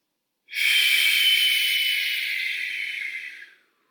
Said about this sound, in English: Start your diaphragmatic inhalation, so breathing into your nose, and then exhale through your mouth.